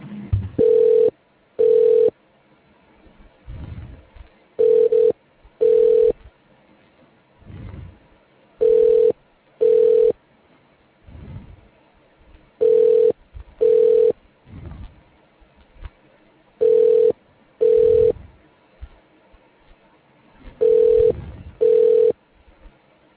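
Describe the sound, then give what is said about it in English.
A telephone ringback tone plays while a call is being transferred: six mid-pitched double rings at a steady cadence, each pair separated by a pause with a faint low murmur. “You are being transferred to Daniel Fogan.”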